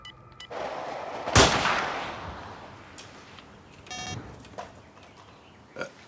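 A rifle shot, from a poorly zeroed rifle on a wild boar hunt: one sharp, loud report with a long, rumbling decay, followed by a few quieter, scattered noises.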